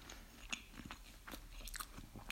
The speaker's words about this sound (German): ich wollte eigentlich eine Folge machen, aber jetzt esse ich nur Nougat-Creme.